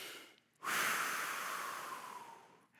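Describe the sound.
A voice imitates deep, purposeful breathing heard around the house on a baby's due day: one long, loud, airy breath that swells suddenly and holds for about two seconds before slowly fading, with no words.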